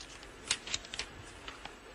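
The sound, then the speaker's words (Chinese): A script page is turned, giving a few faint, crisp paper crinkles and flicks, with the sharpest rustle near the start and softer ones after it, against a quiet background. “谁让你翻页了？”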